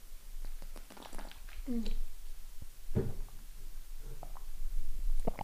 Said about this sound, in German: Sorry, ich muss was trinken. Ich habe es vergessen anzukündigen.